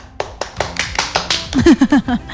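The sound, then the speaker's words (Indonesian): Applause for a young person, heard as a steady series of sharp, separate hand claps, later joined by short, pitched bursts as the sound grows louder. “Dewasa sekali kamu, beri aplaus buat Kedejao.”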